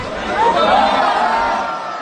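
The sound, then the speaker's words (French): Crowd voices exclaim at a precise espadrille throw. A rising and falling chorus of surprise swells toward the middle, then settles into lively chatter. “c'est un lancer précis et une foule qui s'exclame au sujet d'un lancer d'espadrille.”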